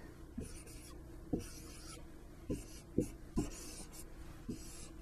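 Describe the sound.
An augmented matrix written out by hand: soft scratchy strokes marked by several light taps at uneven intervals, quiet, with no talk.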